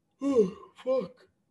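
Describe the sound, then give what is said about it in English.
A huge human yawn: a long, drawn-out voiced breath, followed after a brief pause by a shorter second vocal swell. “huge yawns right now. Not good.”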